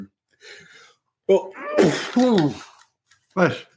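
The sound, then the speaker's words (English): A loud, forceful sneeze with a strongly voiced, roaring quality comes in a few harsh bursts, preceded by a faint breathy sound and followed by one more short voiced burst. “I just had a Hulk sneeze. I had a Hulk sneeze attack, and I couldn't mute myself fast enough.”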